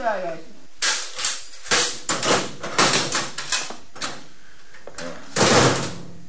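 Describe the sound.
A door being unlocked and opened, a string of metallic clunks, rattles and knocks, with a few sharper, louder bangs among them.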